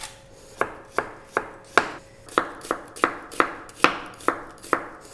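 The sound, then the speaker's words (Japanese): Knife slicing a new-season onion thinly for potato salad: many crisp, evenly spaced cuts in a steady rhythm, each a sharp tap with a brief scrape, with no talking. “じゃあそんな感じで玉ねぎだけ私切っちゃいますね玉ねぎは今日はこれ新玉使いますで薄割と薄めに切ってもらって”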